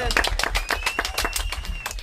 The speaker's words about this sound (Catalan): ¡Porte aplaudiment!